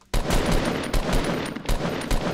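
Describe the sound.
Grenade launcher fire in a video game: loud, dense bursts of firing and blasts follow one another in quick, irregular succession, heavy in the low end and filling the whole stretch without pause.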